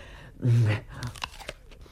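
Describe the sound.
Someone bites into a piece of fruit, apple by the talk around it, to taste it: one loud crunching bite, then a few softer chewing crunches.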